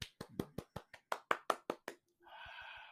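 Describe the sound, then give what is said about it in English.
Hand claps standing in for a studio audience cheering: a run of crisp, evenly spaced single claps at a brisk, steady rhythm, followed by a brief buzzing sound. “That's my imaginary live studio audience going crazy for the NBA being back.”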